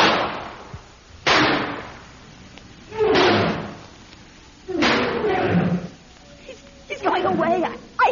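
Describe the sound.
Gunshots ring out at an enraged bear near a cabin in an audio drama. About five sharp, loud bangs come at uneven intervals, each with a decaying tail, and voices are heard between them.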